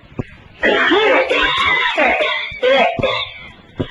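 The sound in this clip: A voice imitates an old man's hacking cough in a loud, raspy, strained burst, then a few shorter harsh coughs.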